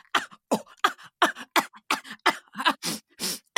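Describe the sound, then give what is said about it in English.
A voice imitates many kindergarten children coughing in a school gym at drop-off: a rapid run of many short, harsh cough bursts at a steady, even rhythm, with no other sound. “And it was just a cacophony of coughing. It was like,”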